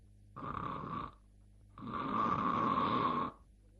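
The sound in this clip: A storyteller's voice imitates the snoring of a character who nods off, with two drawn-out rasping snores, the second longer and louder than the first.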